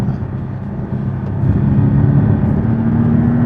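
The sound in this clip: A car with a PDK gearbox and a variable-geometry turbo accelerates, its engine a steady, loud, low drone that grows a little louder partway through, with a tone that climbs gradually toward the end.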